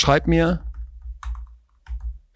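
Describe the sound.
Typing on a computer keyboard comes as a few short clusters of taps separated by brief pauses, after a voice speaks briefly at the start.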